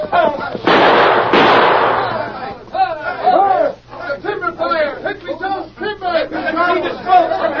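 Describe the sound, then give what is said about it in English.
A loud blast in a Western radio drama as a bridge is blown up: a broad, roaring burst lasting over a second, followed by men talking urgently. “What was the shooting?”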